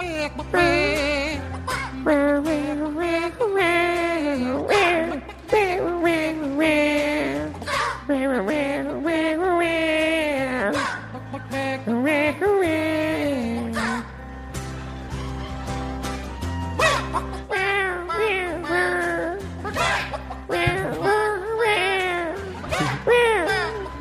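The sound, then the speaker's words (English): A cat meows along to music that plays throughout, its cries blending into a dense, melodic backdrop with sung vocals. “Oh, my God, the cat wants to sing along.”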